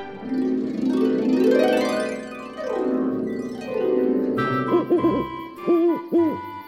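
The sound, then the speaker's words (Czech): Owl hooting at night outside a cabin window: long, smooth tonal calls glide downward in pitch, then a few short, wavering, quavering hoots follow. No voices are present. “Jenže v noci uslyšeli Mickey i Pluto za oknem chaty podivné zvuky. Takové zvuky, jaké ve městě bývají málokdy. Například houkání sovy nebo vytí kojotů.”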